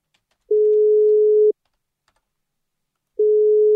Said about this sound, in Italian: Squilla come in Repubblica Popolandia qua